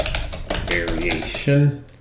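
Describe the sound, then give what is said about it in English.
Someone types on a computer keyboard while filling in a support request, with quick, light key clicks running under a person talking. “I'm just gonna type in this additional information about problem with child”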